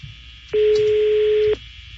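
A telephone being dialed gives a single steady electronic tone, loud and clean, lasting about a second before cutting off, with faint low background noise around it.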